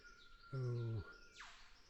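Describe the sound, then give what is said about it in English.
A female-plumaged riflebird calls from the fork of a tree: one buzzy, harmonic-rich note about half a second long, followed by a brief descending swish, set against a faint background. “Those vocalizations were from a female plumaged rifle bird, which was vocalizing from the fork of a tree, probably about”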